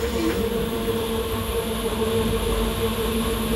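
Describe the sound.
Steady, loud rumble of a Corail passenger train running on rails, a continuous dense roar with no separate events and no voices.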